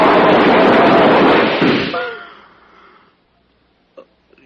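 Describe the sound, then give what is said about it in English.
Gunshots as a radio drama sound effect: a loud, dense blast of noise for about two seconds that gradually fades, followed later by a couple of faint clicks. “They shot at me.”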